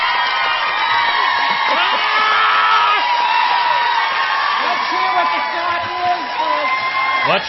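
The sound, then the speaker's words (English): A studio audience screams, whoops and cheers nonstop in a loud, dense wall of excited voices, with a few high shrieks rising above the sustained crowd noise. “Can't hear you over your stupid audience, Oprah.”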